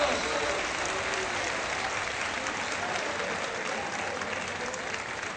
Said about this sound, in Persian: دست بزن